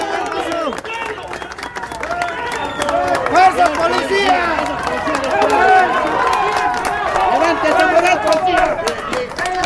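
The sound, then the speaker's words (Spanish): A crowd in a town centre applauds a passing police contingent, clapping mixed with cheering and a busy babble of many voices, growing louder after the first few seconds and staying dense to the end. “ahí está la gente en el centro, contingente de policías aplaudido por la gente.”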